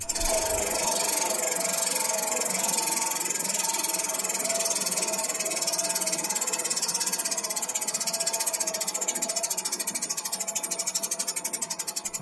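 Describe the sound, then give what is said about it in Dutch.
A prize wheel spun in a book-picking game makes a rapid, continuous ticking rattle with a harsh, buzzy edge. It holds steady through most of the spin, then thins and fades toward the end. “Ik draai even aan het rad.”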